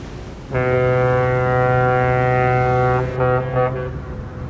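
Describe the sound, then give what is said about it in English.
A ferry horn sounds on open water: one long, deep, steady blast of about two and a half seconds, then a few shorter broken bursts, all over a constant background rumble. “Do you remember the last time we rode this ferry?”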